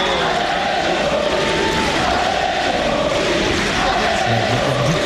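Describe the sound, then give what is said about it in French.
Tennis crowd on the Suzanne Lenglen court roaring and cheering in a dense, unbroken wall of sound, with voices mixed in throughout. “Justement, il a été porté par le public du Suzanne Lenglen qu'on peut-être écouter.”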